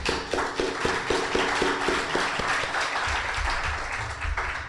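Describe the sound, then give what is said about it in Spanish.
An audience applauds with dense, sustained clapping at a fairly even loudness that tapers slightly toward the end. “Pido un aplauso también”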